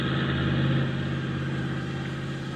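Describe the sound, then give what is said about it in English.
A motor vehicle engine runs with a steady, low mechanical drone and a buzzing hum that holds even, easing off slightly after the first second, alone with no voices. “start your motor. We'll walk over.”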